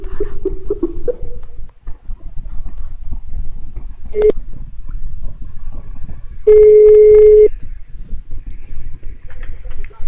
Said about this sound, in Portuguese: Eu ligo pra uma pessoa, a pessoa fica puto comigo. Que que é isso, Jesus? Que que é isso? Mas eu vou ligar de novo.